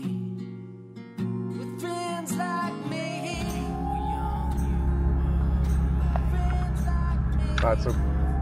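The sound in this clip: Car driving in among tents: a deep, steady engine rumble begins after about three seconds and continues, with varied tonal and voice-like sounds above it.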